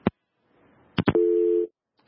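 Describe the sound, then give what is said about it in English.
A telephone busy tone on a call-in line after a dropped caller: a few sharp clicks, then one steady mid-pitched beep lasting about half a second before it cuts off. “Oh, I'm sorry, we've lost that caller there.”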